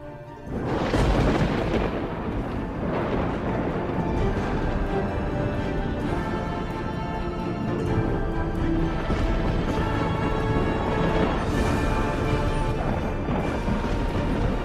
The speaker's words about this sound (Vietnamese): Tiếng sấm vang chớp giật, khung cảnh trở nên chói lòa cả mắt.